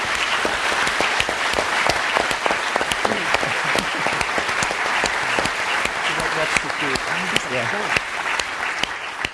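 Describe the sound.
Applause from an evening audience welcoming a guest, a celebrated cook, with continuous loud clapping throughout. Some voices rise from the crowd partway through.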